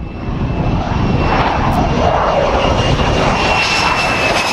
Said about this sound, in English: Here it is in its final stages of testing last November, landing on the deck of the aircraft carrier USS Nimitz.